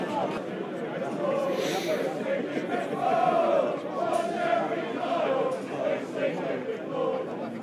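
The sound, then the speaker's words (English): Football fans chant in unison about the Jeremy Kyle show, a sustained, sung crowd chant that rises and falls in pitch over a steady roar of voices throughout. “Witty little chant there about, you've seen us on the Jeremy Kyle show.”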